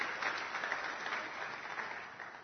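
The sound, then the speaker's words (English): Audience applause welcoming new families, a dense, continuous patter of many hands clapping at an even level that tapers slightly toward the end, with no speech over it. “So please give them a round of applause.”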